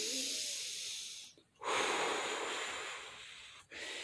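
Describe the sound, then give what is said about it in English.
Forceful exhaling with a steady whooshing breath, blown out until the lungs feel empty: long, loud, airy hisses broken by two brief pauses, where the breath stops before starting again. “Okay, blow until you feel like you have no breath. And believe me, you have more breath than you think you do. But if you just... hear how that whooshing sound goes away?”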